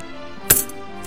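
Gold coins clink as a gentleman pays a shoemaker in his shop: one sharp, bright metallic hit, then a much fainter clink just after.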